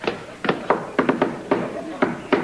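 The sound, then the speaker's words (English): Knocking on a door: a run of sharp, hollow raps in an uneven rhythm, some falling in quick pairs or triplets, fairly loud over a low background hiss. “that'll be enough knocking.”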